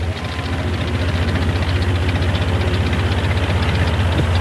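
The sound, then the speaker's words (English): A bulldozer engine idles loudly with a steady, rapid knocking rhythm and a deep, even rumble that holds throughout. “Now, at the base, Tex starts up a bulldozer surrounded by sailors.”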